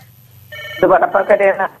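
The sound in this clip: Telephone ringing on an incoming radio call-in line: a steady electronic ring begins, then a voice talks over it as the ring continues underneath.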